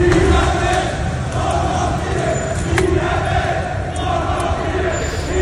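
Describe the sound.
Crowd chanting at a street protest on Avenida Virgen de Luján in the Los Remedios neighbourhood of Seville, with police containing the march. A dense, loud mass of voices holds steady throughout, with repeated chant-like swells.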